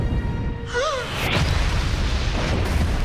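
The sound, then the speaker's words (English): A spaceship explodes in a roaring fireball after a huge rock tears into its side: a brief warbling tone sweeps past, then a sharp burst gives way to a loud, sustained rumbling roar. “A huge rock tears into the side of the ship and it explodes in a roaring fireball.”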